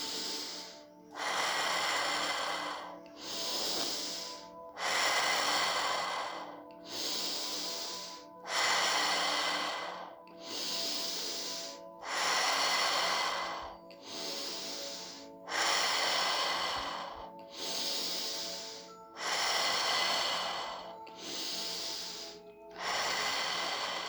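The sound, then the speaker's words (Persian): Slow breathing in and out through the mouth during a guided breathing exercise, with many long, airy breaths in an even, regular rhythm over a soft sustained background tone. “دم، بازدم، دم، بازدم. ادامه میدیم.”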